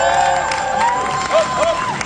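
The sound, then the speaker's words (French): Many spectators along the barriers cheer and clap for passing cyclists at a race, waving flags and signs. Loud, continuous crowd noise carries high whoops and shouts. “Le long des barrières, les nombreux spectateurs applaudissent les cyclistes, drapeaux et pancartes à la main.”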